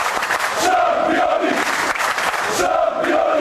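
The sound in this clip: About a hundred fans chant and sing together at Belgrade's Nikola Tesla airport to welcome Partizan's returning European club champions, a loud steady roar of voices with a repeated chanted phrase.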